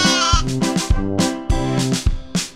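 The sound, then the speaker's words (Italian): Sheep bleating: loud, quavering, nasal calls, about four overlapping bleats in quick succession, each starting sharply and trailing off. “ecco la mucca, la pecora. Pecorella.”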